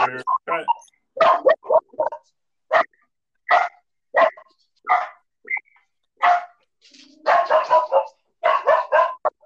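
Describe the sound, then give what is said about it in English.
A dog barks repeatedly in many short, sharp bursts with uneven gaps. The barks are fairly loud, mixing deeper woofs with higher yips. “I don't know what the hell he's barking at.”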